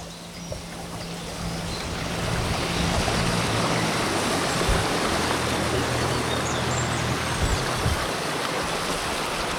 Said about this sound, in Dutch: Een ondiepe punter komt aanvaren.